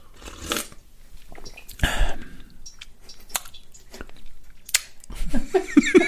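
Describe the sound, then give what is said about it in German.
Sips of homemade pressed grape wine taken straight from a bowl, heard as a few short, wet slurping and mouth noises in irregular bursts, with no talking. “Ich habe das ja in so eine Schüssel hier gepresst, denn ich nehme mal einen Schluck.”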